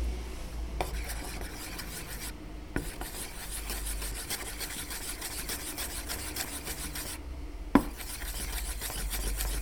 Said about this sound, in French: On va prendre un petit stick en bois. C'est pour toujours bien la remélanger.